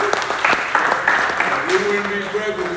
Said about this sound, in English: Let's give Fran a hand for showing up.